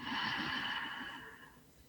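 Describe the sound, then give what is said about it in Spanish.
A single long, airy breath from a person, its soft rushing noise loud at first and then gradually fading over about two seconds, with no voice. “Inhalamos,”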